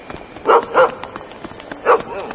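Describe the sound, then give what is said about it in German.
A dog barks three times: two quick barks close together, then a pause, then a single bark. The barks are moderately loud and mid-pitched against a faint background. “Huch, wo kommt denn der Hund auf einmal her? Oh, keine Sorge, wir tun dir nichts. Kein Grund, uns anzubellen.”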